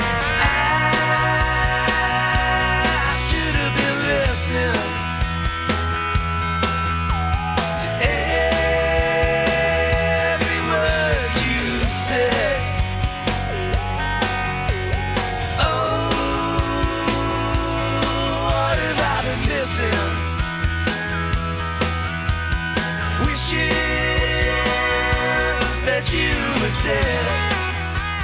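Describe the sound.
A rock song with a bright early-Beatles pop feel, from a 1999 album, plays steadily throughout. Drums and guitars drive a full, upbeat band sound.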